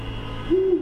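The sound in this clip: A single low, mellow owl hoot sounds at night in Manhattan. It rises briefly out of a steady background hum and ends within a fraction of a second.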